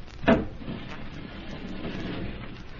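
A hidden wall panel opened with a lever: one short, sharp wooden clack near the start, followed by a low, steady rumble with no voices.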